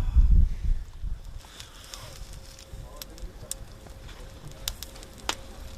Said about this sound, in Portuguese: Em Sesimbra, Tony está agora a grelhar uma posta de espadarte. Este espadarte vem com a pele